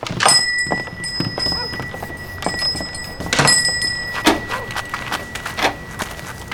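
A door is shut and locked at closing time, with a string of sharp thunks, clicks and knocks, some louder than others, spread over several seconds.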